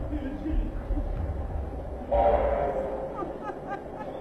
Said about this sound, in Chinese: 火车，火车啊！